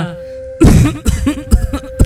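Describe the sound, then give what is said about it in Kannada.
A deep, persistent cough from a man who smokes beedis and cigarettes: one heavy, rasping burst followed by a few shorter chesty coughs. “ಏನೀ ಆಳದ ಕೆಮ್ಮು ನಿಲ್ತಾನೆ ಇಲ್ವಲ್ಲಪ್ಪ?”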